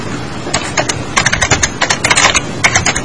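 Someone types text into a spreadsheet on a computer keyboard. Many rapid, irregular key clicks come in quick bursts over a steady background.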